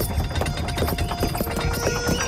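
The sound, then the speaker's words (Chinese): Hooves clopping as a horse-drawn carriage approaches, a steady run of rapid hoofbeats over a dense, constant rumble. “吴国千夫长驾着马车驶了过来。”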